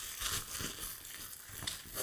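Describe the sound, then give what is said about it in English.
Bubble wrap crinkles as a package of cards is unpacked, giving irregular crackly rustling that runs through the whole stretch with no voices. “He's got them on a bubble wrap. They, they're not in a deck. Are they just loose?”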